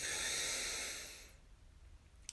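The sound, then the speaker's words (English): A single soft breath, a faint airy hiss that holds for about a second and then fades, leaving near silence. “So let's breathe in together. And out. Breathe in.”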